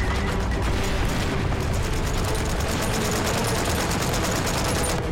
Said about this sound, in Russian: Пулемет продолжает десятками выкашивать немецкую пехоту.